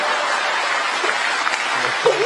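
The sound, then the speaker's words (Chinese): An audience applauds a stage act with steady, dense clapping at an even level. A voice cuts in briefly near the end. “你听着掌声。”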